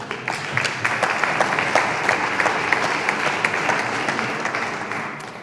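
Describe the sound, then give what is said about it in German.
Applause from an audience, a dense, even patter of many hands clapping that holds steady for several seconds and thins a little at the close. “mein Applaus vorhin war tatsächlich eine Spur zu früh”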